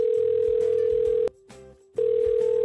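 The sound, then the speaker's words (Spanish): A steady, single-pitched telephone dial tone sounds while a call is being placed. It cuts off briefly in the middle, leaving a fainter hum, then returns at full strength. “aprovechando en este momento que me ha llamado el Guti, quería hacer una pequeña llamada al Sergio.”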